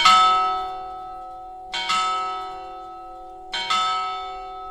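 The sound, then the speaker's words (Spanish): Clock bells in Pliego chime the quarters on a special clock. A few resonant metallic strikes each ring out with a long, humming decay. “Estos son los cuartos de un reloj, ¿verdad? Que ustedes pueden decir, bueno, a mí me suena esto a un reloj, pero es un reloj muy especial.”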